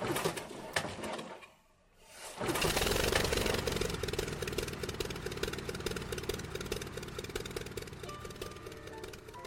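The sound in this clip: A propeller aircraft engine starting up: after a brief lull the engine catches and rises into a steady, buzzing drone that holds to the end, fairly faint overall.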